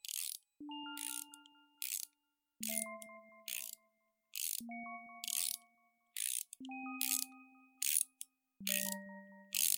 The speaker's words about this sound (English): Then I heard it, a soft ratcheting.